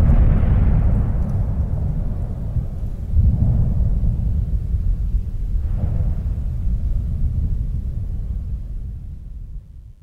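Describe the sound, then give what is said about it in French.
Deep, continuous rumbling of a volcanic crater exploding: a heavy, low roar with a few surging swells that stays loud throughout before easing toward the end. “Le cratère explose, les gens sont morts, la chambre déborde, de la cheminée coule la vapeur.”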